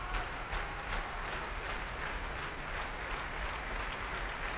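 Applause from a concert audience at the Proms concert hall: dense, steady clapping that holds an even, fairly quiet level from start to finish with no voices.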